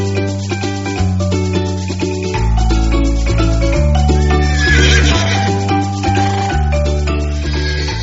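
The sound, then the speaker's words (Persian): A horse whinnies over a melodic music track with a steady, stepping bass line and sustained harmonic tones. The piece plays continuously at an even loudness. “اسب سفید تو آسمون می‌دوید، از روی ابرای سیاه می‌پرید.”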